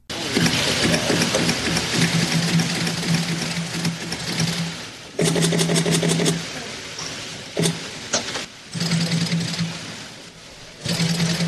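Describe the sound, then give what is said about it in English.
Rapid-fire digital camera shutters clatter in fast mechanical volleys, several bursts of dense clicking separated by short pauses over a constant murmur of background noise. “Perhaps it's no accident that some of the cameras can sound like incoming machine gun fire, but for as much as the digital photography era has changed photography, you can still count on hearing the rapid fire shutters.”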